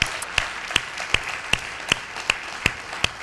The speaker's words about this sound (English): Everybody in North Attleboro, let's give them a big hand and welcome them in as well.